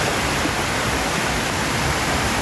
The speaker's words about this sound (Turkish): Sağanakla birlikte Dümbüllü Deresi'nin debisi yükseldi. Taşan dere nedeniyle bazı evler ve ahırlar su altında kaldı.